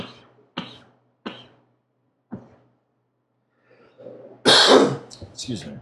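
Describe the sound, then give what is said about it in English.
People clear their throats: a few short, rasping throat clears spaced apart, then a louder, longer burst of throat-clearing with brief voices mixed in. “May as well all clear our throats.”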